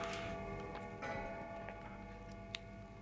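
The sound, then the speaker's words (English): A clock ticks faintly in a child's bedroom in the horror video game Visage. A few soft, slightly uneven ticks sound over a low, steady hum. “What the edge? It's a fucking clock, you motherfucker.”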